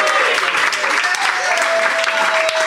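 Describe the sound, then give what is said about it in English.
Studio audience applause greets a guest expert who plays Santa Claus, loud and steady clapping that fills the whole stretch without pause. “Our expert this week is Santa Claus. Welcome, Santa Claus.”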